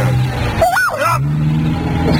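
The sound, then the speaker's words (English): A car's wheels spin without grip at a puddled corner, where it risks sinking to its axles. A steady engine drone runs throughout, and a warbling whine briefly rises and falls early on. “Just a little skid. Now, pull over to your right, sir. By this here Puddleson Corner. Or us will sink to our axles. I'm doing my best. The wheels won't grip.”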